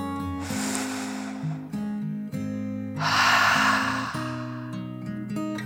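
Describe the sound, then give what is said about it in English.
Deep, slow breath in and out: two long, soft, airy rushes, the second fuller, over gentle sustained music. “Then she closed her eyes and took another deep dragon breath, in and out.”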